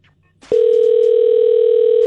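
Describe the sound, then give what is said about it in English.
A telephone dial tone sounds as a call is placed: a brief soft rustle, then a loud, steady, unbroken tone that holds at one pitch until the end. “So, let's call Adam.”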